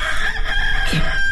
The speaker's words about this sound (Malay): Ayam berkokok, Mak.